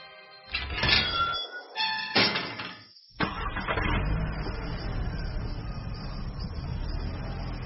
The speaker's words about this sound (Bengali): লোহার মোর্চে ধরা বড় গেটটা খুলে যখন পুরনো বাড়িটায় গাড়ি ঢুকছে